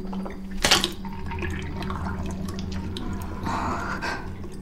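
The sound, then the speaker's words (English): Water is spat from the mouth into a sink in one sharp, wet splash early on, followed by quieter trickling and dripping water sounds. “She sips water from a glass, swirls it around in her mouth and spits.”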